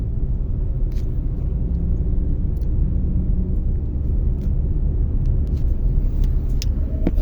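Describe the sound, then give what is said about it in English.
Steady low rumble and road drone from a car being driven to a university. The sound is loud and constant, with no talk. “I am currently driving to university”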